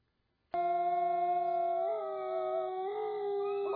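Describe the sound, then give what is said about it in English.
Wolves howling: one loud, sustained howl starts after a brief silence and holds a steady pitch to the end, with a slight waver partway through. “I hear the wolves howling. I hear the wolves howling.”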